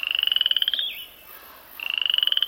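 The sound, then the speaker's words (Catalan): A toad at a pond at the foot of a ravine calls in two high, rapid pulsed trills, each a buzzing run of many quick beats, with a clear pause of silence between them. “Sabeu què hi ha aquí? Un gripau!”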